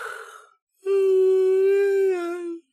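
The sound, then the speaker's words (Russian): A loud yawn from a woman roused early at her door: a breathy rush followed, after a short pause, by a long, steady voiced moan lasting under two seconds, heard alone. “Послышалась громкая зевота.”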